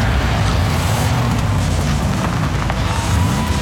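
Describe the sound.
A car drives over a rough road with a steady, loud rumbling and rattling roar that continues without a break and without any voices.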